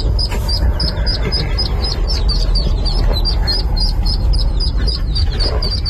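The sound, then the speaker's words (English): Baby ducklings stuck in a grate peep while awaiting rescue by firefighters. Many rapid, high chirps overlap continuously above a loud, steady rumbling background. “that's all the baby duckies that are, you know, stuck and hoping to be rescued”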